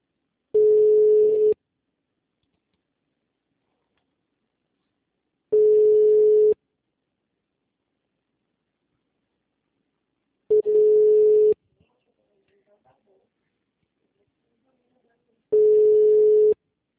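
A telephone ringback tone sounds while a call is placed: four steady, mid-pitched beeps of about a second each, evenly spaced by several seconds of silence, with no voices over them.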